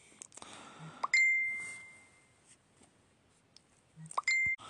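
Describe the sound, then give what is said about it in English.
A mobile phone notification chime goes off twice, each a bright, clear ding followed by a sustained tone, separated by a pause of about three seconds over a faint, quiet background. “I apologise for my phone going off then when I was getting quite serious.”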